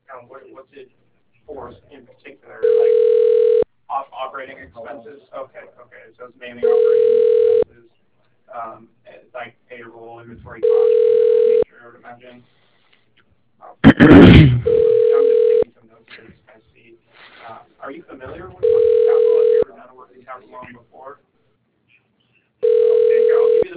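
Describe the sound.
Six steady telephone ringback tones pulse at even intervals as a call is transferred to voicemail. Each is a level, mid-pitched hum, with people talking between them and one brief loud rustle midway.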